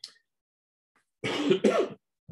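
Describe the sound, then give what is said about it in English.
Someone recovering from a cold coughs twice in quick succession, two loud, harsh bursts with near silence around them. “Please excuse me. I'm recovering from a bit of a cold, and so there may be some spluttering going on”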